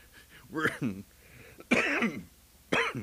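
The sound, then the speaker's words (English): A person coughing, a few harsh, voiced bursts separated by short quiet gaps, fairly soft overall with no words spoken. “that cough that has been keeping me from recording has come back”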